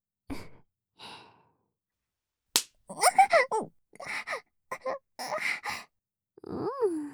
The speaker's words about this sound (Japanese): 同じところを叩くと痛みが心地よい範囲を超えてしまうので位置をずらして叩いてあげてください。